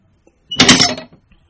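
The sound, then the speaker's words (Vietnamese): A door pushed open, held only by a latch bolt, makes a single short scraping burst of about half a second. It is fairly loud and heard alone, with silence before and after. “Anh đẩy cửa, từ từ bước vào trong.”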